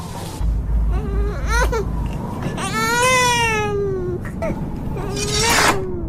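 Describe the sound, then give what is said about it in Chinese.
An infant wails in a drama scene set in a small inn, with a few high, strained cries rising and falling in pitch, the longest swelling in the middle. A low rumble sits under the opening cries. “公子啼哭，令你分神了。先照顾孩子吧，咱们改日再战。”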